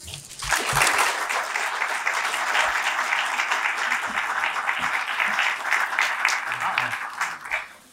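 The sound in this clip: Audience applause welcoming West Virginia University's new athletic director, a loud, sustained burst of clapping that swells quickly, stays dense and steady for several seconds, then tapers off at the end.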